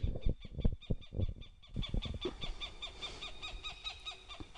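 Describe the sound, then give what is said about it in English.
Birds calling in the evening: a dense, continuous run of repeated high, harmonic calls that keeps going throughout, with some low thumping in the first couple of seconds. “as the birds choose to say good evening, I will say good evening to you too.”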